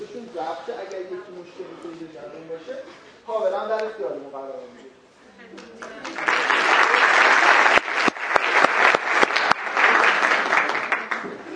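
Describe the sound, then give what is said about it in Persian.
Audience clapping at a Persian-language gathering starts about halfway through, after a stretch of a person speaking. The applause builds into a loud, sustained patter of many hands, with a few sharper individual claps, and continues to the end. “یه دست بزنیم برای من.”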